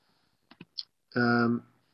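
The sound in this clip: Mouse clicks on the edit button of a WordPress page: three quick, light clicks in close succession, followed by a short burst of a person's voice.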